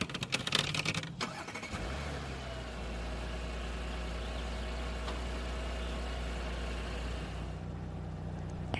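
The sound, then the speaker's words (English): An Audi all-wheel-drive car with a turbocharged 3.0-liter V6 of 335 horsepower idles. After a brief clattering start, it settles into a steady, deep, even rumble that holds without revving. “Turbocharged 3.0-liter V6 with 335 horsepower and 369 pound-feet of torque”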